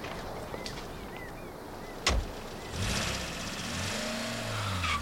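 A van engine near the shore turns over and catches, then runs steadily and pulls away, its low rumble holding under a rising mid-range engine tone.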